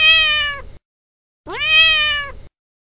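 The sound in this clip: A wild cat meows twice, each call loud, clear and drawn out and separated by a short silence. The second meow swoops upward at its start.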